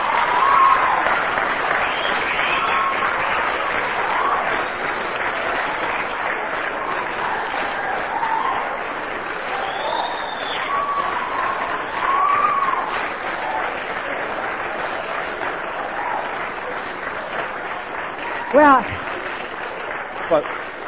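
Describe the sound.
Audience clapping in sustained, dense applause that holds steady for about twenty seconds, with crowd voices mixed through it.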